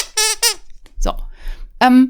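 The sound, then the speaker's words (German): High-pitched vocal squeaks from a person: a quick pair of short squeals, some rustly noise, then a louder final squeal. “ich werde weiterhin quietschen”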